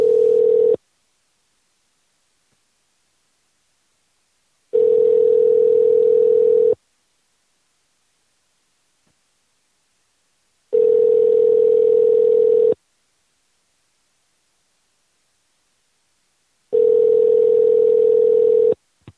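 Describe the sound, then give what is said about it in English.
Ringback tone of a telephone line as a forwarded call goes unanswered: four long, steady electronic tones of about two seconds each, separated by even stretches of silence. The first tone is cut short, and no voices are heard. “This other phone rings a lot.”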